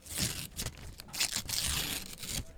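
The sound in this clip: A paper envelope being torn open, with a run of many crisp ripping and crinkling bursts of paper tearing and rustling, fairly loud and uneven, with no talking.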